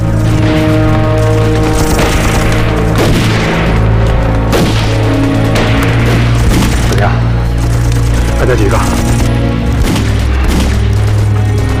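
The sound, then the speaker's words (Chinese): Gunfire in a shooting video game comes as a few sharp bursts and booms over a dense, constant game background, while players talk over the action. “紧接着他们开枪。”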